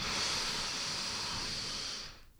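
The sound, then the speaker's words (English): A long, deep inhale: a steady, airy hiss that holds for about two seconds and then fades out, with no talking over it. “allow your breath to fully release. Once again, inhale.”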